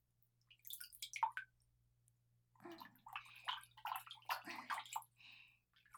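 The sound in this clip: Warm bath water rinses over a body during washing, in splashing, dripping bursts of pouring water. A short first spell is followed, after a pause, by a longer stretch of uneven sloshing.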